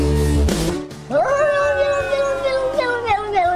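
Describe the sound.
A cat howls in one long, sustained, wavering yowl that holds a steady pitch and then bends downward at the end. A brief burst of other sound comes just before it.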